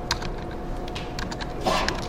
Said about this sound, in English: I will type 1110.